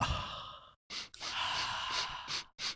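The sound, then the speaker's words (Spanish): Breath is blown out into a microphone in a few soft, airy bursts, the longest ones like drawn-out sighs, separated by short silences and faint overall. “¿Podéis echar el aliento en el micrófono? ¿Pero que se oiga o que no? Sí, sí, que se oiga.”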